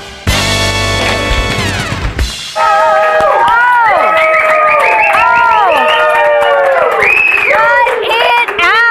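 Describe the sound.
Studio audience at a Las Vegas talk show taping cheering and applauding: a short burst of music, then loud whoops and shouts that rise and fall, with clapping that carries on to the end.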